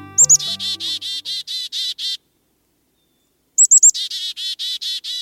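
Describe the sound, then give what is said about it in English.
Black-capped chickadee calls from an adult flying to its nest cavity in a dead tree trunk with a beakful of insects. Two bursts each open with a few sharp high notes, then a run of buzzy repeated notes, separated by a silent gap. “An adult black capped chickadee flies in toward its nest, carrying a beakful of fresh insects.”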